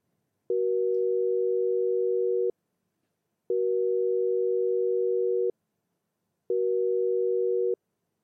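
A telephone busy signal sounds while a call is redialed: three long, steady, mid-pitched tones of about two seconds each, divided by roughly one-second silences, heard alone.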